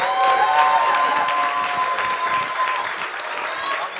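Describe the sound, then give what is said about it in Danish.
Audience applause and cheering at a live comedy show at Comedy Zoo as a guest is welcomed on stage. The clapping is dense and steady throughout, easing slightly toward the end. “Mine damer og herrer, giv en kæmpe stor hånd til. Yes, Dorf. Giv mig en hånd.”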